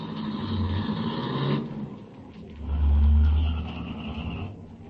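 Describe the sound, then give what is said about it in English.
A car driving slowly along a road, its engine giving a low, steady hum with deep rumbling that swells to a louder peak before settling back to an even drone. “I'll drive along slowly. Keep your eye on the road.”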